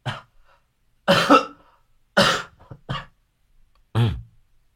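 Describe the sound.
Coughing from a person who has been ill for days: several harsh, separate coughs, some doubled, spaced by short silences, with no talking.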